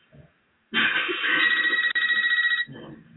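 A telephone rings with an incoming call: one loud, continuous ring of about two seconds, with a momentary dropout midway, beginning and ending abruptly against near silence.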